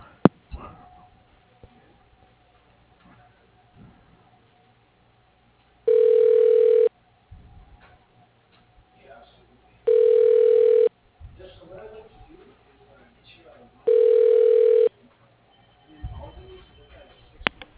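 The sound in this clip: A telephone ringback tone plays while a call is being transferred: three steady, mid-pitched beeps of about a second each, evenly spaced, with faint background noise in the pauses between them.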